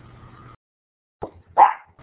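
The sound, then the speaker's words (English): A dog barks in a home during an online talk. A low hum fades into silence, then a couple of short, sharp barks follow, the second one louder and more forceful. “I'm sorry about my dog barking”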